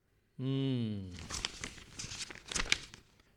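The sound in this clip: Rustling and crinkling of a newspaper being opened to read, a run of dry papery crackles and rustles that follows a short voiced sound at the start, fairly faint overall.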